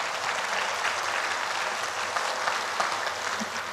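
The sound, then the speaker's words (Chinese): Audience applause at a talk on end-of-life care and life-and-death studies: a dense, steady patter of many hands clapping that holds at an even loudness for the whole stretch, with no voices over it. “我们要不要给大师掌声？”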